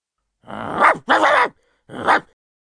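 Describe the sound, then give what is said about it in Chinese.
A hunting dog at a farm gives three short, harsh, bark-like bursts, the middle one slightly longest, with a clear gap before the last. The calls stand alone with no talk. “猎狗突然叫了起来”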